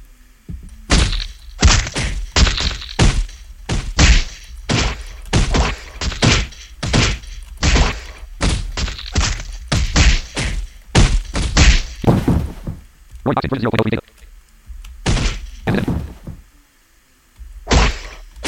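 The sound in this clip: Characters are knocked to the ground in a fighting video game: many sharp, heavy thunks and whacks land in a quick, uneven rhythm, each a short loud impact, with no talk over them.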